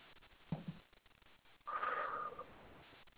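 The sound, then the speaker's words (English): During a guided grounding meditation, a single deep breath is drawn in as a soft, airy rush lasting under a second, carrying a faint whistling tone. A brief quiet click comes before it, and the whole clip is hushed. “And take a deep breath.”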